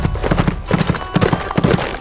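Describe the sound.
Clip-clop of a saddled stallion's hooves as it is urged on at speed, loud quick clusters of sharp hoofbeats repeating in a fast, driving rhythm over a rough, noisy background.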